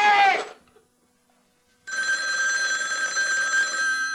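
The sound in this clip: A telephone rings on a call-in line. After a brief voice at the start and a short silence, a steady, continuous electronic ring holds at an even level.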